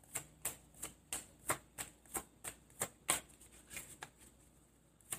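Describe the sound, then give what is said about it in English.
Tarot cards being shuffled and drawn make a steady run of many crisp, papery snaps, evenly spaced and sharp, heard alone without any talk. “I think I'm going to take another card too.”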